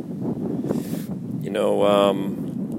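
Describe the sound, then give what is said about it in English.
Wind buffets a microphone outdoors, giving a continuous low, rumbling roar that swells slightly partway through. “I was just testing it for the wind, and you know what? Let's just keep shooting. Let's keep shooting. I apologize if that wind is bothersome”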